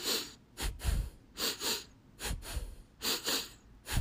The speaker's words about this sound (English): a pulse breath is, again, going to be just utilizing your nose, but you're going to breathe in 2 inhales and 2 exhales